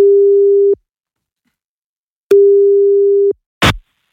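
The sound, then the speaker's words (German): Telephone ringback tone of an outgoing call: two steady, mid-pitched electronic tones about a second long, separated by a longer silence, followed by a brief sharp click as the line picks up. “So wie ich jetzt versuche, Marvin anzurufen, um ihm diese Tickets zu schenken. Aber eben nur dann, wenn er rangeht.”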